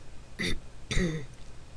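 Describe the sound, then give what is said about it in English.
A woman clears her throat with two quick, gravelly bursts, the second slightly longer, fairly faint and with no talk around them. “After a few candle drops, the conqueror cleared her throat.”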